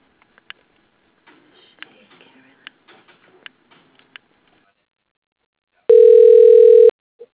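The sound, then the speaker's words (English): A telephone line gives a single steady electronic tone about a second long while a call is transferred to voicemail, preceded by scattered faint clicks and taps. “Yep, I'll transfer you to her voicemail. Hold on.”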